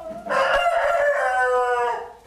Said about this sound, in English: This is the chicken's pen at the farm, where they study breeding and how environment impacts fertility.